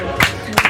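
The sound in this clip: A woman claps for herself right into a microphone: a few sharp, close hand claps with brief gaps between them, heard alone over a quiet background.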